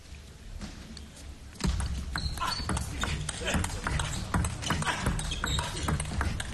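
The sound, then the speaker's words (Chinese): A table tennis rally in a professional match: quick, bright clicks of the ball striking paddles and the table in a rapid back-and-forth rhythm, heard under excited commentary and background crowd noise. “这一板的相持过程当中，对手回球下网”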